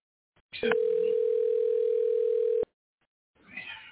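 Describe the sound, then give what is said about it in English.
A telephone dial tone sounds as a steady, unwavering single tone for about two seconds, then cuts off abruptly, with brief noise just before it and a burst of line noise afterward. “I wonder why the lines are busy. Maybe I will dial in.”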